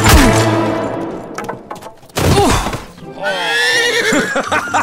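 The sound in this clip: A horse neighs during a jousting match, giving a few loud, wavering whinnies with shaky, rising and falling pitch, separated by brief pauses.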